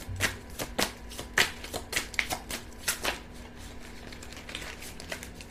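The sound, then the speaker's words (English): Shuffling of a deck of playing cards that stick together, heard as many quick, crisp papery flicks and riffles in an uneven rhythm over a steady low hum, with no talking. “May I have two cards, please? And these cards really stick together.”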